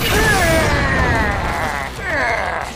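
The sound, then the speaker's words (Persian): A double-strike spinning sword attack in a video game, heard as a loud, swirling whoosh with a metallic, sweeping shimmer. The sound briefly dips, then a second surge follows. “ضربه دوگانه چطوره؟ شمشیر چرخان. ضربه دوگانه.”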